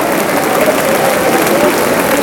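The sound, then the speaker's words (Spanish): Clapping in a church, offered in praise to God: a loud, dense, steady patter of hands with voices faintly under it. “Puede darle palmas y gloria a Dios, hermano.”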